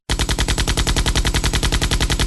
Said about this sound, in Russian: Когда рой подбежал на 400 метров, роверы нового поколения и мини-батареи открыли огонь одновременно. Звук огня был синхронизирован, и дождь пуль полетел по всем направлениям.